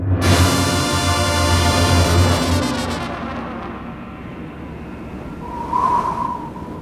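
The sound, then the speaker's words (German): Wind whooshes around a city block, beginning with a loud, whining, tonal howl that eases into a steadier rushing hiss, with a brief whistle rising near the end. “Es windet. Wie ein Vampir huscht der Wind um den Häuserblock.”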